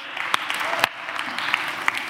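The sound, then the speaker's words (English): Audience applause for a volunteer during a sermon: a steady wash of clapping for about two seconds, with a few sharper claps standing out above the dense patter. “Thank you, Joe. Round of applause for Joe.”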